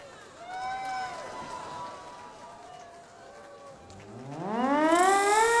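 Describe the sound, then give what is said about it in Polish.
A siren sounds at a Warsaw Uprising commemoration, with steady wavering tones and then a rising wail that climbs in pitch and swells louder toward the end. “Syrena, odpalaj!”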